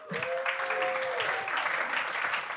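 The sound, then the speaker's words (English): Applause from a church audience for newly introduced kids and tweens team leaders, a steady dense clatter of clapping filling the whole clip at even loudness, with faint voices mixed in. “I think they got the biggest round of applause, of appreciation for all parents.”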